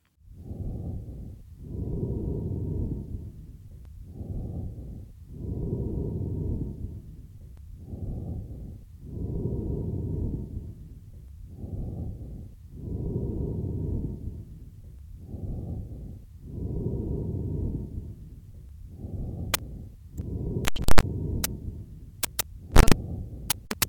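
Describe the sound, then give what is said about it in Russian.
Amphoric breathing from a patient with a large left lung abscess: hollow, resonant, slightly musical whooshing, like air blown into the narrow neck of an empty vessel. Breath phases alternate short and long in a slow, steady rhythm, with a few sharp clicks near the end. “Прослушайте амфорическое дыхание, записанное у больного с крупным абсцессом левого легкого.”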